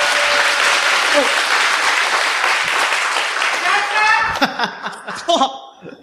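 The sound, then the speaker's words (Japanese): Audience applause at a live event, a loud sustained roar of clapping that thins out after about four seconds, with cheering and laughing voices breaking through as the clapping fades. “皆さん、拍手をお願いします。”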